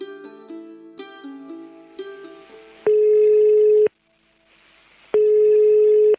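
Ringing tone of an outgoing telephone call: two long, steady, mid-pitched beeps separated by a short silence, preceded by a few brief musical notes.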